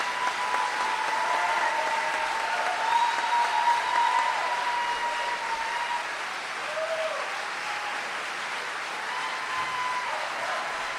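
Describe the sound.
An audience at a University of Toronto book event applauds to welcome author Chris Hedges, a sustained, dense wash of clapping that holds for about eleven seconds and softens slightly toward the end.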